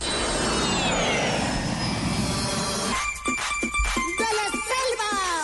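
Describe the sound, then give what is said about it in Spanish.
Roaring engine noise of an airplane taking off: a loud, broad, steady rush with high whining tones that drift downward, giving way after about three seconds to sharper clattering and tonal sounds. “Cogemos el primer avión a ver dónde aterrizamos.”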